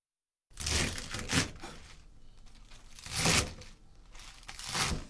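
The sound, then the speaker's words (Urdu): Crisp tearing and crinkling as spinach and broccoli are handled and cut during cooking prep, a few louder rustling bursts rising over a steady leafy crackle, with no voices. “سب سے پہلے ہم پالک اور broccoli کو دھو کر کاٹیں گے۔”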